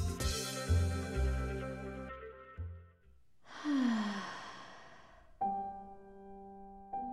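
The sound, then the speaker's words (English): A single deep breath let out as a soft, airy sigh, heard amid gentle sustained musical notes that play before and after it. “A deep breath, and the stress goes away.”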